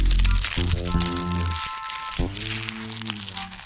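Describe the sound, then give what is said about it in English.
Paper crumpled up by hand gives a continuous crisp crinkling and crackling for several seconds, with a sustained tonal sound running alongside it. “Oh, I screw paper up my hand. Oh! It's got like almost like a chewy sound to it.”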